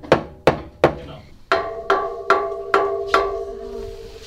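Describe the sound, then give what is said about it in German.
Wooden claves strike a table in eight sharp knocks: three quick, dry hits, then after a short pause five more evenly spaced blows whose woody tone rings on briefly after each impact. “Ja, hier mit auf den Tisch hauen, so.”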